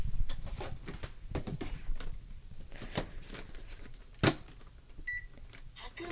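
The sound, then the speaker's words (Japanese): A rice cooker beeps as its start button is pressed: two short, high electronic beeps near the end, after a stretch of soft clattering and handling noises. “普通炊きの炊飯ボタンを押しました。”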